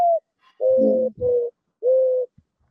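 Mourning dove cooing: a short opening note followed by three longer, soft, hollow hooting coos with brief pauses between them, alone and clear against silence.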